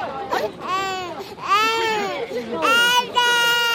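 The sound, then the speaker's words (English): Babies aged six to eighteen months wail while sumo wrestlers hold and bounce them in an open-air ring during a traditional crying contest. Several loud, high, sobbing cries come in bursts with brief breaks between them. “The first child to sob is declared the winner by a referee in an elaborate traditional uniform and blessed with good health. The wrestlers try to encourage crying by bouncing the baby in their arms”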